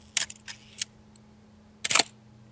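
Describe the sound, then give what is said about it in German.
Sharp camera shutter clicks: three crisp separate clicks come close together, then after a pause a quick tight cluster of clicks. All are brief and loud against near silence. “Ich könnte schon gesagt, das könnte eine Kamera sein, irgendwie. Ja, davon gehen wir aus, weil wir machen eigentlich immer eine Kamera als Geräusch.”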